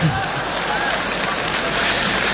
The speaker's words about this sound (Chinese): 谢谢大家掌声的鼓励